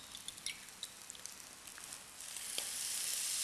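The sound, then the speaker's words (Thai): Sizzling and crackling of eggs frying in a pan, seasoned with light soy sauce, comes through as a faint, steady hiss dotted with a few sharp pops, the hiss swelling slightly louder toward the end. “เห็นไหมครับก็ไข่ก็จะเริ่มสุกนะไข่ก็ไม่แหลกนะครับ”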